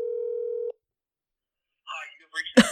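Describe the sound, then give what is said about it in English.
A single steady telephone tone sounds as a call is placed on speakerphone, lasting under a second before cutting to silence, followed by brief voices. “I'm calling. Okay, hold on. Let's see if he answers. I'll put him on speaker.”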